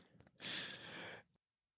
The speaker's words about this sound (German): dann äh, atme ich ein. Was mache ich hier? Einatmen.